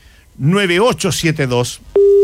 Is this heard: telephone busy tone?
yes